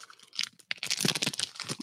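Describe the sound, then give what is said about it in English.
A pack of Tito's cocktail cards is torn open: quick crinkling, crunching and tearing of the wrapper in irregular bursts, with a louder, busier stretch in the middle and no talking. “I have not opened this pack of Tito's cocktail cards yet. And maybe I'll just pull one out”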